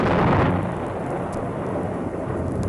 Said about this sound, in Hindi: मेरा ख्याल है मौसम खराब होने वाला है, बादल गरज रहे हैं।